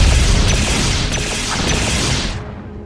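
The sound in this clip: Gunfire being returned during a combat mission in a San Francisco-set video game: a dense, loud, sustained burst of shots with a few sharper reports poking through, cutting off abruptly just before the end.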